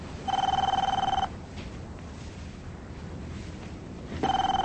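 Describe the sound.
A telephone rings inside a house in two loud bursts with a quiet gap between them. The second burst is cut off at the end.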